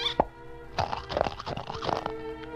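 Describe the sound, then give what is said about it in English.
Crisp crunching of a raw carrot fresh from the field: one sharp bite, a short pause, then a run of crunchy chewing that carries on to the end over a steady tonal hum. “Wow, look at that field of golden ripe carrots. Drool, drool, my favorite food. I've just got to pull one up and taste it.”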